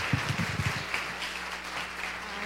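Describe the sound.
Applause from a church audience welcoming a speaker to the City Church stage, a steady, fairly faint wash of clapping with a few deeper thumps near the start.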